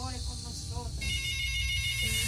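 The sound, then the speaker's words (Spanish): Incoming-call ringtone sounds as steady, bright high tones that set in midway and hold to the end, following an earlier stretch of voice or music. “Oh, recibo esta llamada.”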